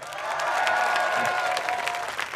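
Festival audience applause: dense, steady clapping that holds at an even level through the whole short stretch, with a faint sustained tone running beneath it.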